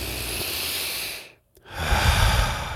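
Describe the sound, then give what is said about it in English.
A loud, deep human breath: two long, airy rushes of breath separated by a short silent pause, with no talking. “I'll tend to take a fairly loud, deep breath. Now, not ostentatiously loud.”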